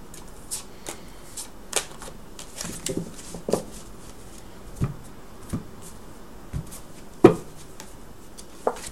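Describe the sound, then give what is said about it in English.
Tarot cards being shuffled and drawn for a three-card reading: many soft, irregular flicks and slaps of card stock, with one louder snap near the end. “I'm going to be drawing three cards, past, present, future, as we take a peek here for Gemini.”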